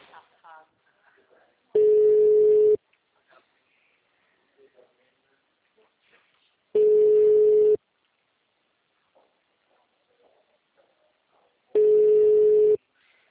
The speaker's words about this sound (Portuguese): Tô ligando agora.